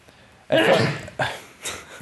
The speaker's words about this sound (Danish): jeg føler et nys